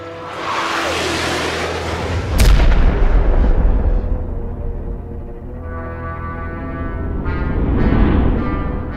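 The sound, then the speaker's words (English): A sci-fi torpedo launch and explosion: a loud, roaring rumble with a sharp blast near the middle, followed by low, sustained droning tones that swell again toward the end. “No-man torpedo away,”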